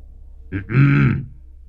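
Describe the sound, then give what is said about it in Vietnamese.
A single short throat-clearing from a man looking out toward the middle of a pond during a ritual: a brief, low, grunting rasp heard alone. “Đoạn nhìn ra giữa ao hắng giọng”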